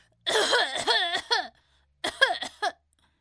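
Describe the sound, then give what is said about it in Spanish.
A voice imitates loud coughing by a person whose back is being thumped to make him cough. Two bursts of several strained, tonal hacks are separated by a short pause. “sus enormes patas en la espalda de Roberto, tratando que tosiera bien fuerte”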